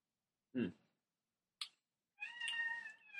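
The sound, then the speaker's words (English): Cats play-fighting and wrestling let out a short yowl, then a brief click, then a longer drawn-out harmonic cry, all faint against a quiet background. “Cat playing / fighting, if you heard the yelling in the background. Going at it. Cat wrestling.”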